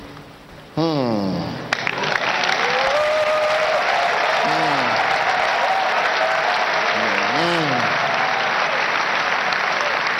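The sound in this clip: Congregation clapping during a church sermon: loud, dense, sustained applause that starts abruptly and holds steady to the end, with a voice briefly rising over the clapping.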